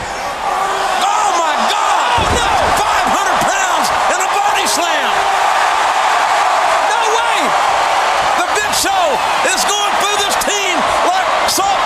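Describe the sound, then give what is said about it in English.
A loud wrestling crowd roars and whistles without a break as a wrestler is hit with a chokeslam in the ring; a heavy thud of the slam cuts through, and commentators talk over the cheering. “And he just got drilled with a choke slam.”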